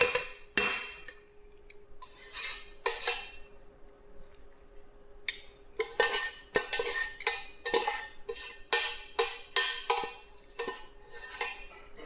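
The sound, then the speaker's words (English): Metal utensils scrape and clink against a pan as pesto pasta is cleared out into a serving bowl. Many irregular scrapes and knocks come in bursts, with short pauses between them and no talk. “Scraping it down and don't leave any pesto behind.”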